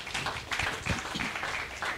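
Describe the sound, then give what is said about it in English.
A church audience clapping hands, a dense, steady patter of many claps sustained for the whole stretch. “Give the Lord a clap of hands.”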